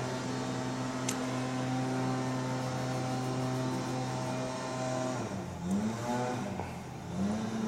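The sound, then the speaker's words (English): Engine noise and horns from work equipment outside a window form a sustained, droning harmonic hum that wavers and bends in pitch toward the end. “And I apologize for the background noise. Nothing I can do about that. It'll go away in a bit.”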